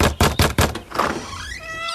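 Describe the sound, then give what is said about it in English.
An unneutered cat looking for a mate gives three heavy thumps, then a drawn-out meow that rises in pitch. “Coming soon to a lost cat poster near you. This feline Houdini has one thing on its mind.”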